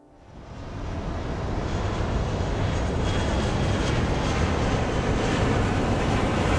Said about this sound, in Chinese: 飞机经过短暂的加速，冲上云霄。